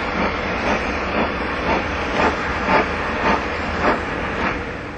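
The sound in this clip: A train approaching a station gives a steady rumbling hiss, with a regular soft clack recurring about every half second throughout.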